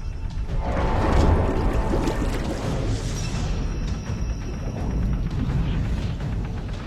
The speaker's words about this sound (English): Underwater, the U-boat releases a torpedo.